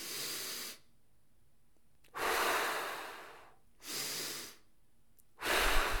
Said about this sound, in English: so one breath in, hold it, one breath out, hold it.